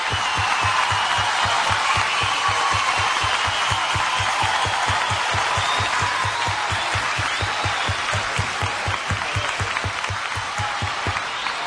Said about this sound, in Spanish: Aplausos para ella, muchas gracias.